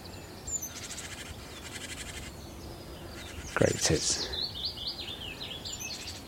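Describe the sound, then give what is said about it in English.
Willow warbler song: thin, high, sweet notes running in a short phrase, with scattered faint chirps from other birds over a steady, noisy background. “A gorgeous willow warbler.”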